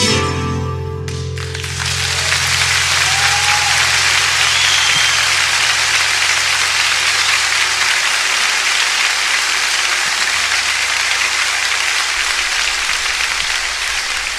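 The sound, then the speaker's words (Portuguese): An audience applauds after a live song performance. A dense, steady wash of clapping rises just after the last fading notes of music and holds at an even, loud level to the end. “Aplausos, muchos aplausos para esta interpretación”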